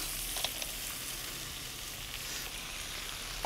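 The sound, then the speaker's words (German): Steady, loud sizzling of edible crabs frying in a pan with carrot and celery, a continuous bright hiss with a few faint clicks and no talk. “Und jetzt kommen hier so die Taschenkrebse dazu.”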